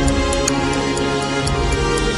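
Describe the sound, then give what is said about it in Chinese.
A clock ticks as it is set back, with light regular ticks running over a loud, dense droning background. “我想先回去，我们把时钟调回8:23:48。”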